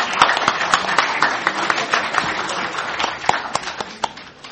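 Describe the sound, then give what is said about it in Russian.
Applause at a regional legislative assembly session congratulating a newly elected State Duma deputy: many hands clap loudly and continuously, with a few sharper claps standing out and a slight drop in level toward the end. “Поздравим, давайте похлопаем.”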